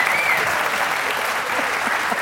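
A theater audience applauds with full, continuous clapping from many hands, holding a steady level throughout.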